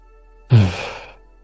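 A single slow, breathy exhale with a faint voiced, sigh-like edge swells suddenly, then trails off over about half a second, alone against near silence.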